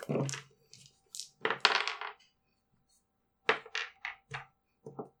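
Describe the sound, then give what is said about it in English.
Two dice rolled onto a surface during a tabletop role-playing game, rattling in two separate rounds of short, sharp clattering impacts with quiet gaps between them. “Then roll both dice and add 12, that's your stamina.”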